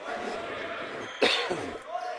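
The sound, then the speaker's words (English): A single sharp cough into a microphone during basketball game commentary, a short loud burst standing out against ongoing talk. “Sorry about the cough, folks. Try not to cough into the mic there.”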